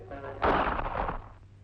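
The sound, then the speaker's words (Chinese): A single pistol gunshot: one sudden heavy blast that rings out and fades over about a second, over a low steady hum. “子弹穿透了罗莫诺的心脏，就这样一声不响地倒下了。”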